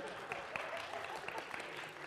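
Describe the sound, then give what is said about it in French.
An audience applauding during a church service: faint, continuous clapping from many hands with a few sharper claps popping out. “Oh, et on peut l'applaudir.”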